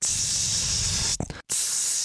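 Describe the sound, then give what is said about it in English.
A voice imitates the constant spray of a long perfume atomizer with a steady, loud hiss that runs for over a second, breaks off briefly, then resumes as a second hiss. “it was essentially spraying myself with Glade, you know, like a constant spray”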